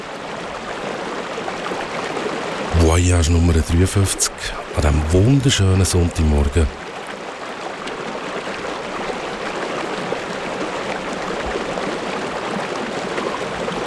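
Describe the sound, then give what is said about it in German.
Rushing flow of the Loup, a small river in the hinterland of Nice in southern France, a steady hiss running throughout beneath a voice talking, with a short musical jingle cutting in briefly near the middle. “Das, was du da hörst, ist der Loup le Loup, ein Flüssli im Süden von Frankreich, im Hinterland von Nizza.”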